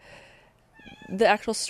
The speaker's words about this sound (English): And I apologize if you could hear my cats in the background were fighting for a second there.